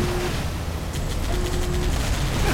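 Rumbling explosion as an energy core is blown up in a video game, a steady heavy roar with a quick string of crackling pops through the middle.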